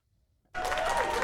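Applause sound effect of a live audience: after a brief silence, a burst of dense clapping starts abruptly and stays steady and full to the end.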